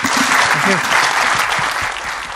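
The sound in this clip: Audience applause at a logistics conference keynote, a dense, steady clatter of many hands clapping throughout, easing slightly at the end.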